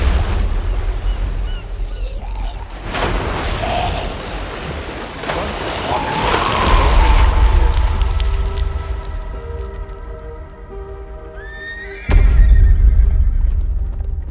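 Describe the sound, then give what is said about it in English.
Soundtrack from a Walking Dead season 10 Comic-Con trailer: loud, surging low rumble like wind and surf, with sustained tones building toward a deep boom and a horse whinny near the end. “Walking Dead season 10 Comic Con trailer. It's fucking All right. crazy. It's fucking. It looks amazing.”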